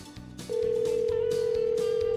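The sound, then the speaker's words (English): A telephone line tone sounds during a call to a store in Munising: a short burst of clatter, then a steady, unbroken mid-pitched tone that holds to the end. “So here we go. Let's dial Scott up from Hillside Party Store in Munising.”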